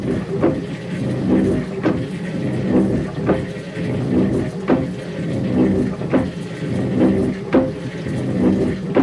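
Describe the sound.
A water pump runs on a ranch in Novato, its mechanical rhythm a steady repeating cycle of clicks and knocks over a continuous churning drone.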